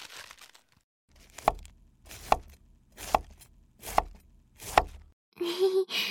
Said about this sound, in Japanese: まずはキャベツを切っちゃおう。これを千切りに。